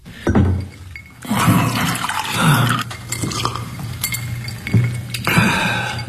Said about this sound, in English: I watched him use getting a drink of water to cover his fury.